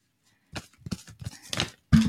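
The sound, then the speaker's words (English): Tarot cards being shuffled and falling out, heard as several soft papery rustles and slaps in short bursts, the last one the loudest. “Okay, so all the cards are falling out, and I didn't even have to make an intention.”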